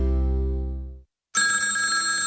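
A telephone rings, heard as a single loud, rich bell tone that fades over about a second. A short silence follows, and then a different bright, steady tonal sound begins.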